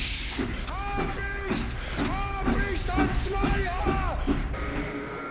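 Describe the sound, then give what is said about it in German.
Voices imitate a train departing with a series of wavering, hooting calls that rise and fall in a steady rhythm, over a loud, constant hiss. “Alles einsteigen! Der Zug von Hamburg-Berlin fährt jetzt los.”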